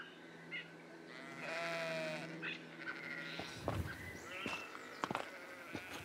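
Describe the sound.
A sheep that has been let into a house bleats once in a long, wavering cry. A few sharp knocks and some rustling surround it, and the whole scene stays faint.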